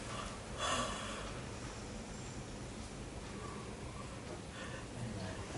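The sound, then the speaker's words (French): A person breathes out slowly and softly during a guided relaxation exercise. A stronger breath comes near the start, then a steady, faint airy hiss follows, with no talk. “Soufflez et vous relâchez.”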